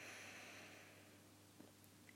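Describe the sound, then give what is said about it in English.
Soft inhaled breath during a counted breathing exercise: a faint, airy hiss that thins out over about a second, then near silence before a brief louder noise at the very end. “Inhale, number 5.”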